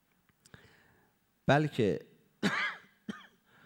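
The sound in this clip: Coughing from someone who says cough medicine set it off: a few faint clicks, then four harsh, voiced coughs in two quick pairs, loud against a quiet background.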